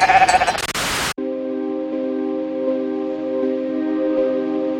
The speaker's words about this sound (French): Les journalistes découvrent alors une petite brebis qui, effrayée par toute cette agitation, bêle.